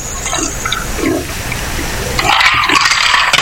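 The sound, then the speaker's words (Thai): Soda water poured into a drink comes in as a bright, fizzy hissing rush after a quieter stretch of faint small sounds, and it stays loud to the end. “เติมโซดาสักหน่อยดีกว่านะนะฮะนี่โซดา”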